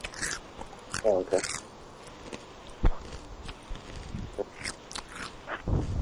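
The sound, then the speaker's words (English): A person chewing food on a prank phone call: soft, wet mastication broken by a few sharp, crunchy bites, muffled and thin as if heard down a phone line. “Oh, hang on a second, hang on. I can't hear while I'm chewing.”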